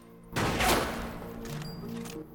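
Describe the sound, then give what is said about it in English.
A gunshot on a shooting range sounds as a sudden, loud, sharp crack after a brief quiet, followed by a ringing tail that fades slowly. “A blonde woman's firing a gun on a shooting range, aiming at a human-shaped target and hitting the head every time.”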